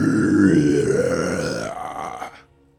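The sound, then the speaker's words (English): A voice imitates a monster's deep, guttural growl: one sustained, rasping groan of about two seconds that tails off at the end, with no other sound. “As you see, almost like Muk from Pokemon, you see, like, it looks like this, like, gaping mouth start opening as these, like, glowing iridescent eyes shine. Hate that. As you hear this guttural.”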